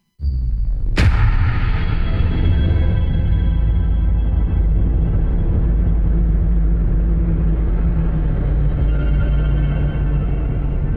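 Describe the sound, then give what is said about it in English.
Trailer audio for First Man, a film about the first man to walk on the moon: a sharp, bright impact near the start, then a loud, sustained, heavy rumble that holds steady to the end. “Speaking of things that are good and a little bit different, here's the trailer for First Man.”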